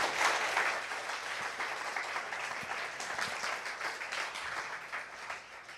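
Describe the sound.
A church audience applauds, a dense, steady wash of many hands clapping together that stays fairly loud throughout before easing slightly at the end.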